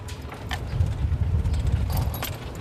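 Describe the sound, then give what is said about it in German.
A small cart drives across a campsite with a steady, low motor rumble, and light rattling and jingling rides on top throughout. “Es passiert endlich, ich darf mal auf so einem kleinen Wägelchen mitfahren und über einen Campingplatz fahren.”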